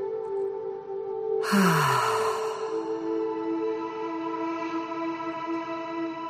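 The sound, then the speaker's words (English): A slow breath drawn in through the nose and let out through the mouth makes a long, soft, airy rush that fades gradually over sustained, droning music tones. “Let's breathe into our nose. Slowly exhale through the mouth.”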